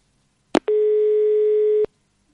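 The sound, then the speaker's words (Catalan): Telephone busy tone after a dropped call: a click, then one steady, loud electronic tone that lasts a little over a second and cuts off with another click. “s'ha tallat la trucada.”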